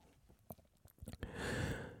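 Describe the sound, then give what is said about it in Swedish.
Faint chewing of a peach, with soft wet bites and small clicks building to a denser, more continuous mashing sound toward the end. “Ganska god persika faktiskt.”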